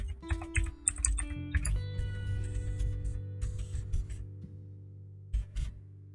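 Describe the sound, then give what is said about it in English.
Rapid typing on a computer keyboard: many quick, irregular key clicks in dense bursts, fairly quiet, with a steady low hum underneath. “I'm like half talking because I'm like typing.”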